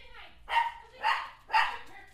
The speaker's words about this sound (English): The dog's barking now. Is the dog in on this?